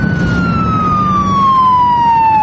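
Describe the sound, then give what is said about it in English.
A police car siren wails steadily, its tone sliding slowly downward in pitch, loud over a constant rumble of road noise. “As they continue down the highway, a squad car approaches fast behind them with its lights flashing.”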